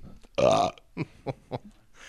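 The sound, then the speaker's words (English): A single loud, drawn-out burp with a rough, low tone, followed by a few brief, quieter bursts of sound. “I got a burp. Hang on.”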